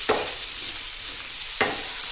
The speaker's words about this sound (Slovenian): Zdaj bom to lepo opražil.